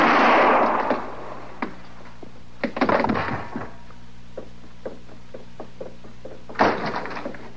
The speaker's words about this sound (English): I heard them shots.